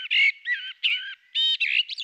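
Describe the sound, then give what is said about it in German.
A common blackbird sings a typical strophe: a quick run of several short, varied, fluty and warbling high phrases separated by brief gaps. The bird is heard alone, clear and fairly loud. “Also das ist eine ganz typische Struktur von so einer Strophe, wie so eine Amsel singt.”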